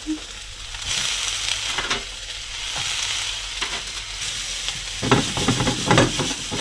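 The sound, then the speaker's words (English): Prawns sizzling as they are added to a stir fry: a steady, bright frying hiss with bursts of crackle and stirring, growing louder and busier toward the end, with no talking. “Then we'll add the prawns. See, people make stir fries differently. I like to make it like this, you know. Looks delicious already. I'm going to add the prawns now.”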